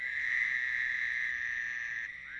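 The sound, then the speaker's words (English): A hybrid toad gives a continuous trill with a harsh quality, intermediate between the American toad and another species. It is a steady, fairly high-pitched buzzing tone that holds level for about two seconds, then drops slightly in loudness. “you can get individuals that have calls that are intermediate between the two, huh. That are more trill-like, like the American toad, but have that harsh quality or aren't as long as the trill of the American toad.”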